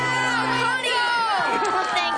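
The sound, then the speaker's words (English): Children cheer for their baseball coach, a loud chorus of young voices shouting together in one sustained burst. “cheer for Coach Kendall.”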